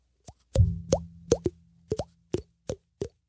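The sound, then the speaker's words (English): A voice imitates a liquid plop with the mouth, making many sharp, hollow popping clicks. Each one flicks up in pitch, and they come in an uneven rhythm with short gaps. “I can't do that noise. You know the liquid noise when you.”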